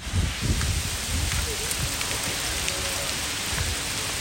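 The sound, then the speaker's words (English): Hail falling outside a studio makes a dense, continuous hissing patter with scattered sharper ticks and a low rumbling undertone, steady and fairly loud throughout, with no voices. “What you're hearing now is the sound of hail that was just right outside our studio just a few minutes ago.”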